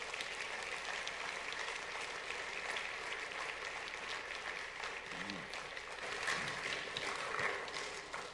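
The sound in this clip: An audience applauds to welcome a speaker onto the stage at a church service, a soft, steady wash of clapping that carries on evenly throughout and swells slightly near the end.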